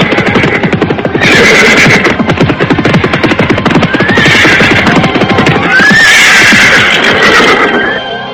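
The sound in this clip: Horses of a mounted cavalry troop arrive at a large, luxurious mansion on a cold night: a loud, continuous clatter of hooves runs throughout, with several whinnies and neighs rising over it.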